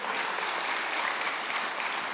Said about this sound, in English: Round of applause.